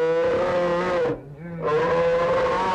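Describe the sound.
Deep, harmonic roaring from a brown bear: two long, loud, sustained growling roars separated by a brief pause.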